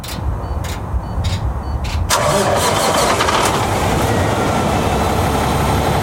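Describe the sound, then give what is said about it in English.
A big rig truck's diesel engine of about 16 liters cranks over with a rough, grumbling churn. After about two seconds it catches into a loud, steady, deep rumbling idle that carries on alone. “That sounds big. That's got to be like a 16 liter something. Freaking huge. That's grumbly. That's definitely a big rig.”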